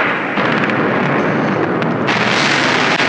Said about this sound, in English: Shots being fired now in Baghdad. I want our viewers to listen in.